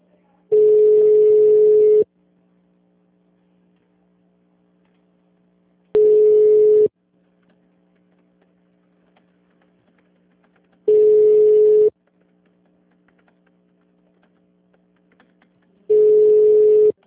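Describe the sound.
Telephone ringback tone plays while a call to Hospital São Luiz, Unidade Jabaquara, is transferred. Four steady, loud tone bursts of a second or more each are separated by roughly four-second gaps, with a faint low hum in between.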